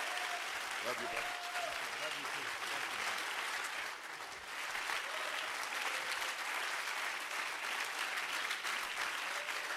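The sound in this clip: An audience applauds to welcome a church district superintendent, steady dense clapping that carries on for nearly ten seconds, with faint voices mixed in.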